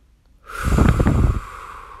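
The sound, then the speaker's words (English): A single deep breath is taken during a guided relaxation session, heard as one loud, breathy rush of air lasting about a second, alone and followed by quiet. “Take a deep breath, please.”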